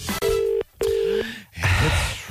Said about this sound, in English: It's ringing.